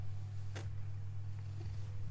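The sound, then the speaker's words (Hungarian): A cat purring while being petted and scratched on the head, a low, steady, continuous rumble heard quietly on its own, with one brief soft burst of noise partway through. “oda megy hozzád, elkezdi a fejével böködni a kezedet, hogy itt az ideje, hogy simogatni kezdjél humán, csinálj valamit, legyen valami hasznod. Igaz, Cica?”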